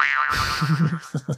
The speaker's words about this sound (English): This is the sound of a snake whenever it tries to jump.